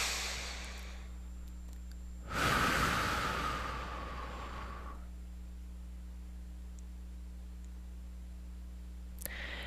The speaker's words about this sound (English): So let's take a nice deep breath.